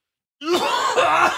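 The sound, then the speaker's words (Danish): A single drawn-out, voiced cough or throat-clear with a rough, groaning tone, caused by a frog in the throat. It bursts in abruptly after silence and stays loud for about a second. “Og jeg skal lige hoste.”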